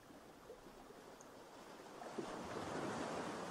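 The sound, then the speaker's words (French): Sea waves washing onto a beach: a soft, continuous rush of surf with a breezy hiss, swelling gently louder toward the end. “Le bruit de la mer vous berce, vous emmène vers votre être intérieur”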